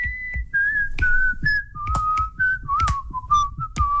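Whistling of a song: a person whistles a melody as a run of clear, sustained notes at shifting pitches, with soft low thumps and noise underneath.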